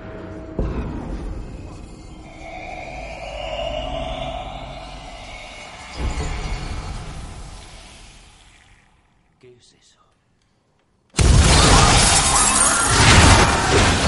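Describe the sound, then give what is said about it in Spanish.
Rumbling, rushing crashes as an invisible force tears through a darkened venue of billiard rooms and private lounges, smashing everything; a long swelling roar fades to near silence, then a sudden loud burst of breaking and shattering follows. “fuerza invisible entra en la sala destrozándolo todo”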